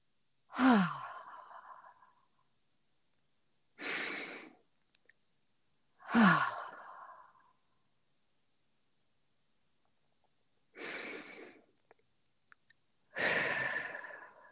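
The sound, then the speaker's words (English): Slow deep breaths taken during a guided calming pause, heard as five long, airy, sighing breaths separated by silent gaps, with no talking. “Stop what you're doing. And now let's all together take three deeper breaths together.”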